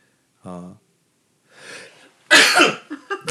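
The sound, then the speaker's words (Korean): A single loud, explosive sneeze bursts out after a faint breathy intake, followed by a few short, quieter breathy sounds. “편집 없는 우리 방송 그대로 재채기가 다 들어갔고요.”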